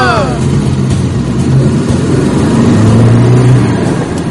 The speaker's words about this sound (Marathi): अरे बास बस बस इथेच थांबव गाडी